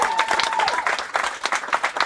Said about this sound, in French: Jérôme, je vous demande d'applaudir Jérôme Chélus, le réalisateur de l'émission.